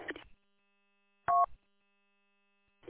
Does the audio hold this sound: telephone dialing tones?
yes